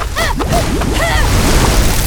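A cartoon water-power blast sound effect, water shot onto snow and freezing into ice during an avalanche escape: a loud, continuous rushing, sloshing wash with warbling tonal sweeps over it.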